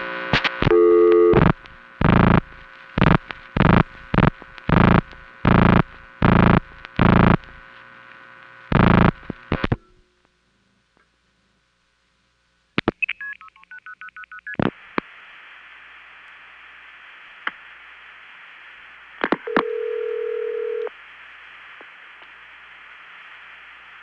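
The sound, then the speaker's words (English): A recorded telephone call routed through a crossbar tandem to an SP1 end office in Georgia: a rapid string of many dialing tone bursts, a pause of silence, a few short stepped chirps, then a long steady tone broken by a brief lower tone. “Now, I don't have many recordings of calling SP1 end offices, but here's one via Hempstead, Atlanta 1. 4042. Chattanooga Crossbar Tandem, 6155, to Lafayette, Georgia's SP1.”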